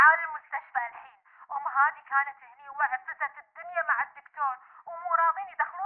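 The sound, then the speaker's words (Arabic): Mobile phone ringtone sounding, a bright warbling electronic melody of quick, trilling repeated notes in a narrow mid-high band, playing continuously for about six seconds in short phrases. “زين لحظه، تلفوني قاعد يرن، بس مكالمه ضروريه.”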